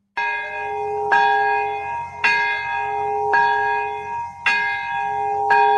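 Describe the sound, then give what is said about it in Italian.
Church bells of Urakami Cathedral in Nagasaki ringing together: six loud, evenly spaced strikes about a second apart. Each leaves a long, overlapping resonant hum with bright metallic overtones. “A Nagasaki sono le 11 e 2 minuti, le 4 e 2 minuti del mattino in Svizzera. Per la prima volta dopo 80 anni suonano entrambe le campane della cattedrale di Urakami, vicinissima all'epicentro della bomba atomica sganciata il 9 agosto”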